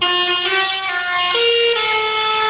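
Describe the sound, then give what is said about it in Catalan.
Tractor horns honking in a street protest by farmers in Lleida against rising fuel prices, with sustained, blaring, overlapping tones that drop to a lower pitch partway through and stay loud throughout. “En aquest cas són els tractors que s'han fet sentir pels carrers de Lleida”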